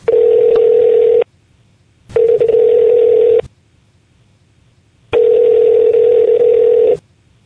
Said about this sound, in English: Do you think we should get him on the horn? Let's dial him up. Get him on the horn.